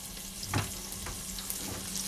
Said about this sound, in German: Und jetzt ist der Fett heiß, ich habe die Kreuzkümmel drin. Zunächst kommt das, was man typisch auch in der europäischen Küche kennt, Zwiebeln rein.